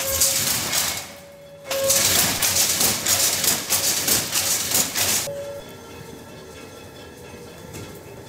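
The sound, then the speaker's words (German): Steady loud mechanical clatter of a weaving loom as the shafts shift and the batten beats the weft thread into the fabric; the dense rattle drops briefly near the start, then continues and eases into a quieter running hum. “Schäfte oben, Schäfte unten, Lade nach hinten. Jetzt wird die Lade vorkommen und drückt den Schussfaden hier an das fertige”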